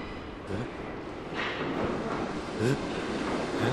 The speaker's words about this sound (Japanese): もう来たよあ、こっちが3分後に来てそっちはすぐ来るんだ。これね、意外と本数多いですね。これ次の列車来たもんね。